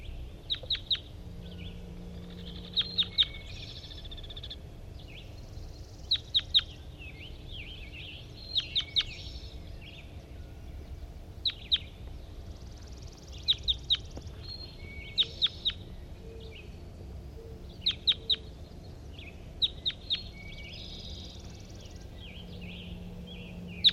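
Bird song in short, high, bright chirping phrases that repeat many times at fairly regular intervals, each a quick cluster of notes over faint low background hum.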